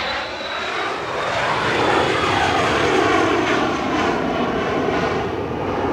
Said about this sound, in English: Our audience will presumably have heard there. We are at Farnborough and there is an active airfield next to us here. So you will occasionally hear the odd jet taking off, which we may have to pause for.